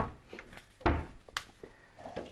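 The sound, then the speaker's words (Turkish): A kitchen food processor is taken out of a cupboard: one loud knocking thump, then a few softer clunks and light rattles. “Şöyle hemen bir saniye, hemen şuradan robotumu da çıkarıyorum.”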